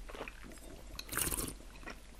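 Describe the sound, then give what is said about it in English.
A taster draws a sip of French Syrah red wine with a faint, short, airy slurp mid-way, wet and soft, surrounded by quiet and with no talk. “let's taste the Syrah first, the French Syrah. French first.”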